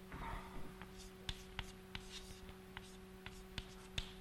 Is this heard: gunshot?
no